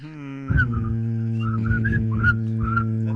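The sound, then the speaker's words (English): A person whistles a wavering tune of short notes that rise and fall in pitch over a steady low droning hum. The whistling begins about half a second in and continues to the end. “whistling. Where's that noise coming from? That's whistling.”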